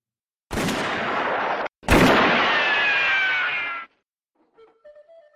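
Two gunshots ring out in a western duel, each a loud, sharp report with a long, ringing decay, the second slightly louder, followed by a few faint small sounds.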